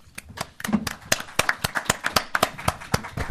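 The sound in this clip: Applause from a conference audience welcoming a speaker at an event on Ukraine and Central Europe at Hudson: crisp individual hand claps, sparse at first, then quicker and denser as more people join in.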